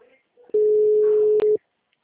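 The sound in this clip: A telephone line tone as a call drops: one steady, mid-pitched beep lasting about a second, with a tiny break near its end. A few faint, brief sounds come before it.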